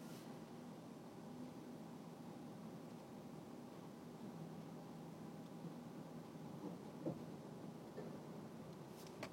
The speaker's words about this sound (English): it's raining quite hard out here.